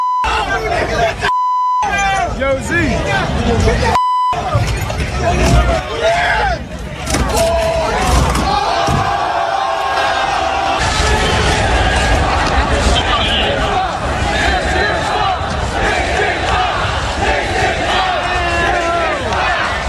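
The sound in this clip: Crowd rioting in the streets of New York City during a championship celebration: dense, continuous shouting, yelling and babble fill the whole stretch, with two short bleep tones near the start.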